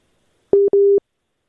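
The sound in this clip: Busy tone after a dropped phone call: two short beeps at a steady pitch, with a brief gap between them and nothing else around them.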